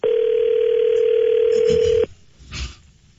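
A telephone dial tone heard while placing a call holds one steady, loud, unchanging pitch for about two seconds, then cuts off abruptly, leaving faint low noise.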